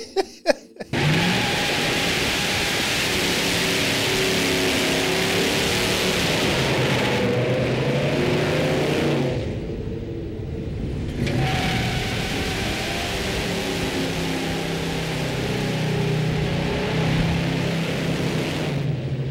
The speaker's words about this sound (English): Again, the automatic's at a little bit of a disadvantage, trying to get the tires to spin really hard.